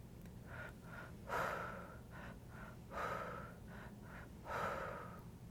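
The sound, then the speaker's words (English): Deep breathing into the belly and releasing during a guided meditation: soft, airy breaths repeat steadily, with three fuller, louder breaths rising and falling in an even rhythm over a low, constant hum, all faint and with no talk. “Breathe deep into the lower belly, breathe deep into the heart, release it all.”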